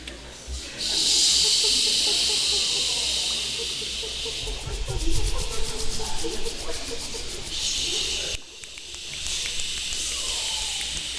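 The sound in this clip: A voice imitates crashing waves and other water sounds: a loud, breathy, sustained hiss that swells, wavers and fades, then drops off briefly before resuming.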